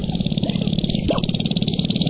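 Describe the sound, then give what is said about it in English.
Male sharp-tailed grouse calling at a lek during their mating display on a North Dakota prairie at dawn in April. Many birds make a loud, steady, rapidly pulsing chorus that sounds like small motors running, with a brief rising call near the middle. “At first light, we see the source of this otherworldly chorus. Male sharp-tailed grouse performing their elaborate mating dances.”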